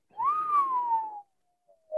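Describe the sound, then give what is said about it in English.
A person who admits they can't really whistle produces one long whistled note that lifts slightly, then slowly slides down before cutting off, followed after a pause by a short second whistle at the end. “I don't really know how to whistle. I did my best.”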